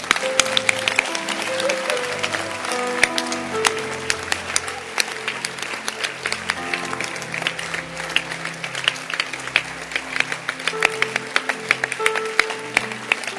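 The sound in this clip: Audience at a sermon clapping their hands in sustained, dense applause for about thirteen seconds, a steady moderate wash of claps with scattered sharper individual hand strikes.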